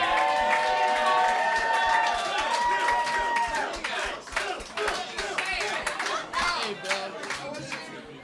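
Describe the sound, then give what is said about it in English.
A live show audience claps and cheers to welcome the next performer. Whoops ring out over dense applause at first, and the clapping thins into sparser, uneven claps toward the end. “please welcome Bill McMorrow.”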